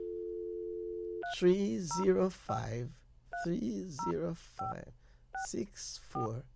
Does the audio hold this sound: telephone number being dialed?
yes